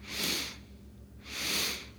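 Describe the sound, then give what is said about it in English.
Two quick inhalations of air through the nose during a breathing exercise meant to release tension. Each is a soft, airy hiss about half a second long, evenly spaced, over a low, steady hum. “practice a simple breath to release any stored tension in the body, in the mind. Taking two sips of air in through the nose.”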